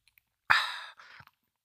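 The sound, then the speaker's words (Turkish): A voice imitates a small child drinking water: one loud, breathy slurping gulp, then a softer second swallow, with a few faint clicks around them. “Sana bir ses yapayım mı abi? Küçük bir çocuğum ve su içiyorum.”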